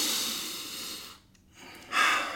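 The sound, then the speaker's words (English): Slow, deep breaths, heard as breathy airy rushes with a short quiet pause between them. The last breath is louder and brighter. “Take 2 deep breaths for me. Again.”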